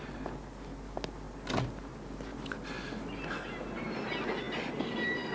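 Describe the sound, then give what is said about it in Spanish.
Train noise at a station as a train gets ready to depart: a steady rolling rumble with a few metallic clanks and one brief louder burst early on, no voices. “El tren está a punto de salir.”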